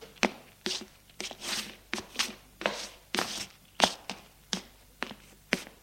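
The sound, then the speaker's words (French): A man walks furiously, his footsteps a steady run of firm, heavy thuds at a brisk, regular pace, each step landing sharply. “Catherine se lève et s'approche de Charles. Yves marche furieux.”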